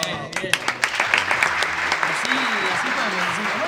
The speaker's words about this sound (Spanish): Fuerte el aplauso.